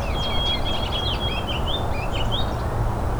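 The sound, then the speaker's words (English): A goldfinch sings nearby in a rapid run of high, twittering chirps and short whistled notes that continue throughout, over steady low background noise. “You can also hear a goldfinch nearby. It's kind of overpowering it.”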